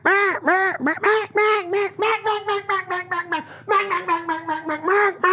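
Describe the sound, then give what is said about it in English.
A duck call blown to imitate ducks gives a rapid run of many loud, nasal quacks, then a brief pause and a second quick string of quacks, with no talking. “Sounds like ducks. They get a little bit closer. And then all of a sudden they're like, it's got to be real.”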